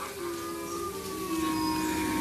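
A wolf howling: one long, sustained tonal wail rich in overtones that drifts slowly downward in pitch and holds steady in loudness for the whole stretch.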